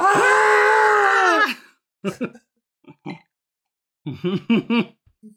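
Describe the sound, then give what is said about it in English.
Screaming from ghost rock being shovelled aboard a train: one long, loud, wailing cry lasting over a second, then several short guttural grunting bursts separated by silence. “That's the sound of shoveling ghost rock. It's like the screaming sun in Rick and Morty.”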